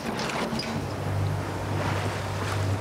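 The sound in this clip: A sailboat heads out of a harbour onto the sea off Kühlungsborn, with steady rushing wind and water noise and a low continuous rumble throughout, no voices.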